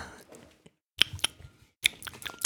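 Eating and chewing from two people still at the table, heard as a few quiet, sparse clicks and soft crunching bites separated by brief silences.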